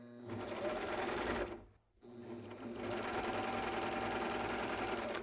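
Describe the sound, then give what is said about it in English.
A coverstitch sewing machine sews a hem on plaid fabric. Its rapid, steady mechanical whir runs loudly, stops for a brief moment, then resumes at the same even pace. “put a little piece of fabric under there, and I'm going to sew. And now, since it's started my stitch, okay? I can sew off into the air.”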